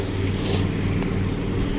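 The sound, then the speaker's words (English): A big truck moving concrete walls gives a steady, unbroken low engine rumble with broad road noise over it, holding an even level throughout. “Wow, what are they doing there? It's a big truck with a...”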